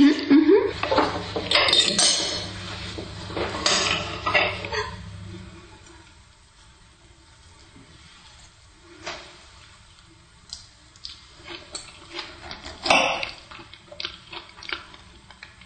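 Cutlery clinks and scrapes against plates while someone tastes a dish with tomatoes, busy in the first few seconds, then sparser light taps and knocks.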